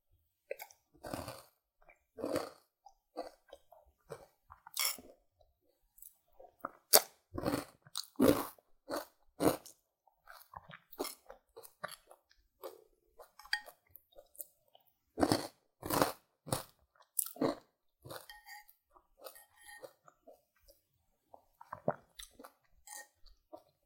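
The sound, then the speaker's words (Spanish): Crunchy chewing of honey-flavored Miel Pops cereal, with many crisp, crackling bites and mouth sounds in irregular bursts separated by brief pauses, close and alone without talk. “recién se me ocurre hacer este ASMR para ustedes pero Sí, está riquísimo. A mí me gusta. Prueben el miel pops. Son muy ricos.”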